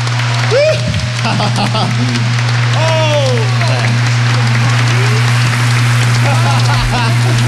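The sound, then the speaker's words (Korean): Concert audience applauding a disco group's show at Sejong Center, Seoul: loud, continuous clapping with whoops and whistles rising above it, all over a low steady hum. “다시 한번 박수 보내주시기 바랍니다”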